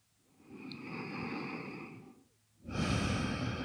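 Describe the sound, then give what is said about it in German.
Slow, deep breathing into the lower belly during a guided relaxation exercise: two long, soft breaths, the second louder and breathier, with no talking over them. “Nur ein paar tiefere Atemzüge in den unteren Bauch.”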